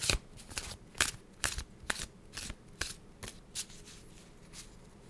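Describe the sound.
Thoth tarot deck being shuffled, many quick papery riffles and slaps in an irregular rhythm, fairly faint over a soft background hiss.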